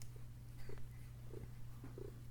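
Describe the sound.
A cat purrs, a faint low rumble that stays steady and continuous, with no other sounds around it.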